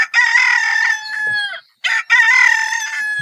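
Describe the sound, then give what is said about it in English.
A domestic chicken rooster crowing cock-a-doodle-doo: loud, bright, drawn-out crows with a strong harmonic tone, coming back to back with a brief gap between them, alone with no talk. “And here's the call of the domestic chicken.”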